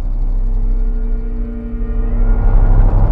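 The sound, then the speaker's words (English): A vehicle driving slowly along a street of white clapboard houses, a steady low engine rumble with a faint hum that swells slightly toward the end. “A vehicle drives slowly along a street of white, clapboard houses.”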